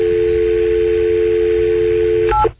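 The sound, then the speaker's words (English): A telephone dial tone hums steady and loud and unbroken for over two seconds. Brief keypad dialing tones then break in just before the sound cuts off. “I'm still dialing. It's supposed to be on the phone.”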